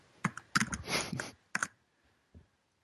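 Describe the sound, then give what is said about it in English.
Fingers type on a computer keyboard in quick clustered bursts of clicking keystrokes, then a short pause and a few scattered single taps, with no talk over it. “Nor do you type quietly”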